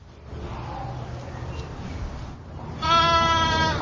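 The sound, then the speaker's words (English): A newborn lamb bleats at a rare-breeds farm at Colonial Williamsburg in spring: one loud, drawn-out, wavering bleat that breaks in near the end after a stretch of quiet background noise. “Among the first signs of spring are daffodils, budding trees, and at Colonial Williamsburg, new lambs.”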